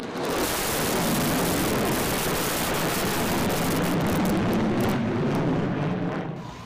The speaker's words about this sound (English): Despite the emphasis on harmony, a bomber's flyover during the ceremony caused an unscripted moment.